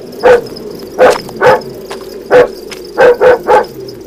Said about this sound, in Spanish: Luces al fondo del camino brillaban junto al reconocido aullar de un perro que lo seguía impertinentemente.